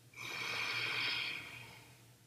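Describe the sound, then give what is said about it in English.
A single slow exhale through the nose during guided breathwork: a soft, airy hiss that rises quickly, holds steady for about two seconds and then tapers off, heard alone with no voice. “Hold your breath here on top. Imagine the golden light between your eyes on your third eye. And then exhale through your nose.”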